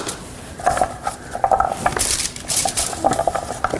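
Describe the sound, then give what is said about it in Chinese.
Large potato wedges, peeled and cut, are set onto baking paper on a tray, giving a string of light clinks, taps and soft knocks in an irregular rhythm, with no voices. “薯角放在你的烤纸上”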